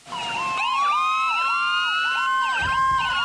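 An emergency vehicle siren sounding on its own, loud and continuous, with tones that rapidly sweep up and down in a repeating wail, overlapping cycles and a low rumble joining near the end.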